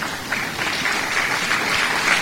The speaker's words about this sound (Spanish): Vamos a permitir ese aplausote para el Señor, pues vamos.